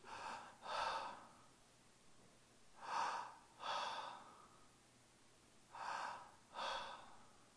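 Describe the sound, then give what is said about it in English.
A man at a pulpit breathing slowly in and out: three audible breath pairs, each an airy inhale followed by an exhale. They are evenly spaced with quiet pauses between and no talk. “I thought, "Well, yeah, he's breathing."”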